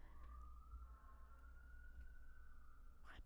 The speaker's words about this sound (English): So that was a siren.